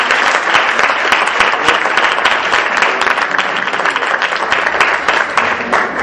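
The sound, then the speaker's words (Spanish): An audience applauds a guest speaker at a Catholic talk on faith and science. Dense, loud, continuous clapping runs unbroken through the whole stretch. “el doctor Daniel Ambrosini, que lo recibimos con un fuerte aplauso.”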